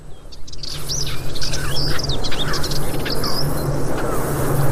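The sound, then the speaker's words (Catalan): Calls of partridge, hoopoe and warblers: many high chirps, whistles and trills overlapping continuously over a steady low hum, with no talking. “se sent molt a perdiu, també. I comencem a sentir, per exemple, la puput se sentia també. I alguns tallarols.”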